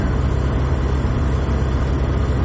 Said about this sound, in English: It's 2:30 a.m. and we're driving back. From the wedding venue.